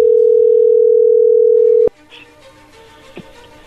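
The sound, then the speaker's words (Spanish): A telephone dial tone heard while placing a call holds one steady pitch, loud and unbroken for nearly two seconds. It then cuts off sharply with a click, leaving faint line noise and another soft click. “Vamos a ver qué pasa, vamos a llamarle.”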